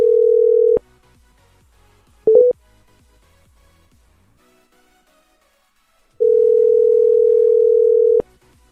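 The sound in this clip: Telephone call tone on a redialled number: a steady mid-pitched tone, then a brief choppy burst, a long silence, and a second steady tone lasting about two seconds.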